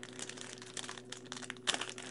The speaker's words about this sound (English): All right, so I'm getting ready to open up a pack of 2026 Series 1 cards here from Topps. See who we get in here.